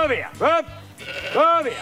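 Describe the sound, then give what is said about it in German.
Sheep bleating in a solar park: a few short, wavering bleats in quick succession, loud and nasal with a brief pause between them. “Aber mit den vielen Solarparks hat sich für die Schäfer nun eine neue Möglichkeit aufgetan, sagt unser Reporter Fred Pilaski. Er hat für uns Schäfchen gezählt unterm Solardach.”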